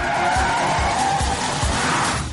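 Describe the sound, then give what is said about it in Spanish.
A car accelerates hard, overtakes other vehicles and turns left in a crime drama scene, its tires squealing and skidding over a loud, sustained engine roar. “Pisa el acelerador. Adelanta a otros vehículos gira a su izquierda.”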